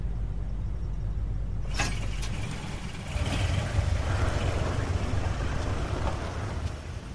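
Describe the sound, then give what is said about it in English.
A car driving off, with a low, continuous engine rumble and a brief sharp click early on. A fuller engine roar follows and holds steady at moderate volume. “They drive off again.”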